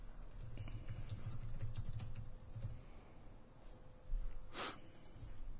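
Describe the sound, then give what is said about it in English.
Typing a web search on a computer keyboard: quick, faint key clicks patter through the first half, then quieter tapping and a brief breathy snort near the end. “Just type in Glenn Rogers fucking interview, see if there's an interview on there.”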